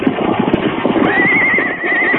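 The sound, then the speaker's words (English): Horses that have been pulling on a rope neigh, a loud, high, wavering whinny that carries on over rhythmic thudding hoof clops. “Steady there, your horses. Bow up there. Take it easy there.”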